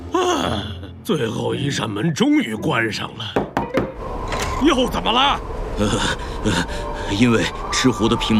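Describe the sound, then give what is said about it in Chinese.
A door creaks and knocks shut in an arctic fox's burrow home with many doors, with mechanical clunks and creaks mixed under animated voices talking throughout. “最后一扇门终于关上了”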